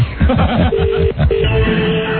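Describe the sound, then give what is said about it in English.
A telephone ringback tone plays over a phone line after a random number is dialed. It sounds as two steady, mid-pitched tone bursts with a short gap between them, thin and band-limited like a phone connection. “I'm just dialing numbers at random now. I don't have a phone book or anything. No? Got another ring.”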